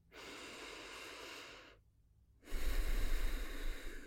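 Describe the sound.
Slow, deep breathing during a guided body warm-up and relaxation practice: two long, airy breaths separated by a short silent pause, the second louder and fuller than the first, with no talking.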